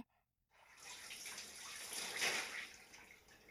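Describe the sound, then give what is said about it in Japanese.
Water poured over someone's back during a bath wash: after a brief silence, a continuous splashing gush starts, swells to a peak and eases slightly. No voices are heard. “それじゃあ次はお背中流します。一回背中流して、”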